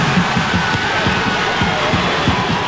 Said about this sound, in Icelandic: útbrutust gríðarleg fagnaðarlæti meðal heimafólks